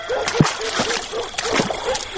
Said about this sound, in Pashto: الا سړیا زر شه، ویالې ته وڅوکه چې لور مې ولیده.